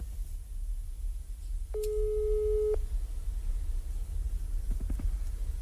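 A telephone call ringing tone: one steady, mid-pitched electronic tone lasting about a second over a soft background hiss, followed a few seconds later by a few faint clicks.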